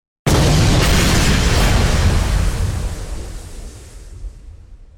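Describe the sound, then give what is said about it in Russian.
A bomb hidden in a briefcase explodes with a sudden, loud, deep blast that erupts into a broad roaring rumble, then slowly decays over several seconds. “Он выплюнул глоток крови и, стиснув зубы, активировал бомбу в портфеле.”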